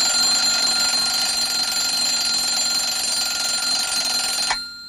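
An alarm clock ringing: a bright, high-pitched, continuous metallic ring that holds steadily at full loudness and then cuts off just before the end.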